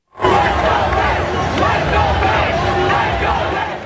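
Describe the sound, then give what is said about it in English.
Large crowds line a New York City street for the ticker tape parade honouring the NBA champion New York Knicks. A loud, sustained roar of cheering and babble begins abruptly and holds steady throughout. “large crowds lining the streets ready to salute the NBA champion New York Knicks with a ticker tape parade up the Canyon of Heroes.”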